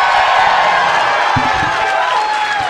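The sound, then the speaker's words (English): A live show audience in Phoenix claps and cheers in a continuous loud roar, with whoops and shouts rising above the steady applause throughout. “the people listening at home can't experience this, but that moment when this theme song is playing and you guys are clapping”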